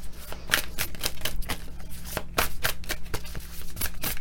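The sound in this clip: Playing cards are handled and dealt, making a steady stream of many quick papery snaps and riffles. The sound is brisk, dense and fairly loud, with no voices.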